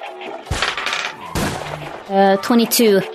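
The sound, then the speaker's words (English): Two sharp, loud gunshot cracks from a semi-automatic pistol in a video game ring out about a second apart, then a voice follows. “PG is gonna move down to the bottom, face this guy, and shoot him with her quick draw limb with her at least semi-auto pistol.”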